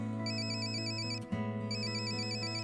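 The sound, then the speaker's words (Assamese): A phone ringtone plays as a call rings unanswered: a faint, repeating electronic chime pattern over a steady tonal bed, with a brief break in the middle before the pattern resumes. “মই তেওঁক phone কৰিলোঁ ring গৈ আছে”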